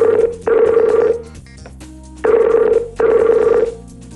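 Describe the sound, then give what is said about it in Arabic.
A telephone rings on an outgoing call, a bright mid-pitched electronic tone in short bursts that come in pairs. Two pairs are heard, separated by a short pause, with no talking. “يلا لين عم نتصل فيك لين.”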